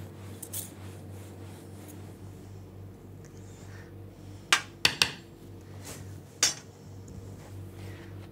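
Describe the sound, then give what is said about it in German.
A knife cuts a sponge cake base into three layers while the base is turned. A low steady hum runs underneath, and a few sharp metallic clicks and taps cluster near the middle. “Dabei versucht man immer auf einer Seite zu schneiden und den Boden schön zu drehen. Den mittleren Boden schneidet man am dicksten, da muss nachher am meisten Kirschwasser rein.”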